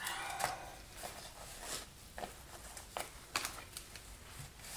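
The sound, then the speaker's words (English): Insulation being torn by hand, a run of many rough, crackling rips in short bursts of uneven length, fairly faint, with brief pauses between pulls. “Oh man, this stuff tears a lot easier than I thought. I should have been tearing this a lot more than I've been tearing it so far.”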